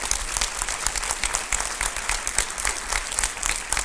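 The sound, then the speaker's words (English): Audience applause welcoming a representative who is also a local pastor at an evening gathering: dense, steady clapping from many hands that holds evenly for the whole span, with no clear voices over it. “Let's give him a big hand.”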